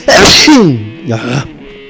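A loud, breathy human sneeze bursts out suddenly and trails away, followed by a softer, brief vocal exhale.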